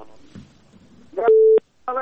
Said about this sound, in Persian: بله این تماس ما قطع شد.